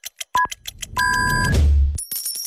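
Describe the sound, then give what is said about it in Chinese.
Radio time-signal pips mark noon Beijing time on a Chinese radio station: several short, evenly spaced beeps, then a longer steady tone. A low rumble and bright electronic tones follow. “准确对时，现在是北京时间12点整。”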